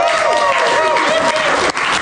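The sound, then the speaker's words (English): Applause and cheering for players welcomed on stage in a sports bar, with thick clapping and crowd voices whooping over it at a strong, steady level until a brief dip near the end. “Now we're joined by three of the players. We have Jackson Ford, Adam Pompey and Dimitri Baimonga. Let's give them a round of applause, folks.”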